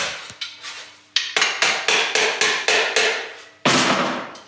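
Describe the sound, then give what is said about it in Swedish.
A tinsmith hammers the seam of a sharp sheet-metal pipe bend, striking bright, ringing metallic blows in a steady rhythm, with a short pause after the first couple before the strikes resume, with no voices. “Skarprörsböjen fogas ihop och får det utseende som kännetecknar kulturplåtslageri.”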